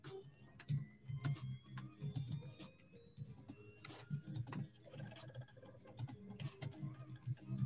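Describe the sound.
Fingers typing on a keyboard: faint, quick, irregular key clicks that run on in bursts throughout.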